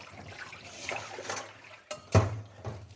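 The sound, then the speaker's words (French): Water splashes in a kitchen sink as a bunch of basil is rinsed and shaken, with soft irregular sloshing followed by a sharper splashy burst near the end. “je le rince bien et je le secoue dans l'évier pour essayer de faire partir un maximum d'eau”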